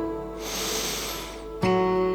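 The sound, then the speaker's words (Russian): A long, deep inhale through the nose makes a smooth, airy hiss lasting just over a second over a steady, sustained musical drone. “Вдыхая носом, сделай выдох через рот. Повтори вдох.”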